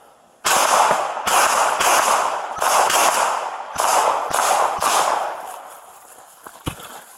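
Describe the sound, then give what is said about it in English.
Gunshots crack out during a police confrontation: a rapid run of loud, sharp reports with rough, ringing tails, then a lone fainter pop near the end. “shots fired. Stop that fire.”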